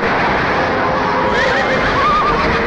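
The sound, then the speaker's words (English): Horses whinny amid a loud, continuous din as two Apache horses collide and one falls with its rider during a western wagon battle; a couple of brief, high whinnies cut through the steady noise. “Two Apache horses collide. One of them hits the ground with its rider.”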